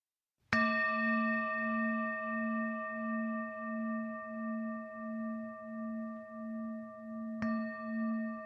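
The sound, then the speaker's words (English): A resonant bell is struck twice, first at the start and again near the end, and each strike leaves a long sustained ring with a slow, pulsing wobble that fades only slightly between the strikes. “And as you hear the sound of the bell, letting it permeate inside of you”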